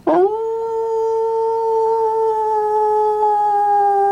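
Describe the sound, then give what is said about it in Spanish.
Dog howling in a dark place: a long, sustained howl that rises quickly at the start and then holds a steady pitch, heard alone with no talk. “Es un lugar oscuro, taladrado por el aullido de perros que caminan en una sola pata.”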